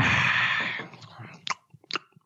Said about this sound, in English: We're home 24/7 and you can't find a different time to chew.